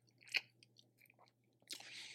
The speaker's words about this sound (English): Sorry, I'm eating peanuts at the same time.